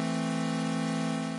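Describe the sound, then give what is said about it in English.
An unfiltered synthesizer tone mixing saw and square waves holds steady and loud, with a buzzy, bright, gritty timbre full of high overtones. “So I've got a pretty basic saw square tooth mix.”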